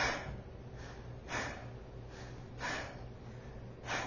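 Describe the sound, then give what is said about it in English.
Rapid breathing, demonstrated by a person to show a rate faster than thirty breaths per minute: four soft, evenly spaced breaths about a second apart, faint and breathy, with no talk. “30 times per minute is about a breath every 2 seconds, right? If my math is correct, if I breathe,”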